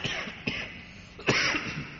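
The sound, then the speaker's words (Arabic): Coughing from a man who is ill: two rough coughs, a short one followed by a louder, fuller one, over a low steady background noise. “سامحوني شوي مريض، الله يعينكم عليه الكحة”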